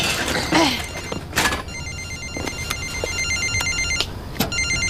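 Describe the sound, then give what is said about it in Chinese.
An old brick-style mobile phone rings with a repeating high electronic warble in steady bursts, mixed with a few sharp knocks and thumps. “电话响了， 可能电话响了。”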